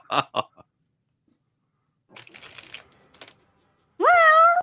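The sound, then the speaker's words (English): A single short cat meow, rising and then holding its pitch, sounds at the end after a few sharp clicks and a stretch of soft rustling. “Oh, it's a cat again. Go away, those cats.”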